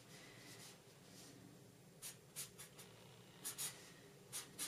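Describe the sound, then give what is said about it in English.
A pen writes on paper while a financial example is worked out by hand, giving a faint scratching texture with several short, sharper strokes toward the end. “If you're on the YouTube channel here, I'm going to write it out for you.”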